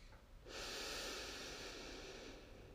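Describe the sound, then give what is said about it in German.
Deep inhale through the nose during a guided breathing exercise: a single long, soft, airy draw of breath that begins abruptly and holds steady for about two seconds, heard alone and faint. “Und dann schließ die Augen und atme mal ganz tief durch die Nase ein.”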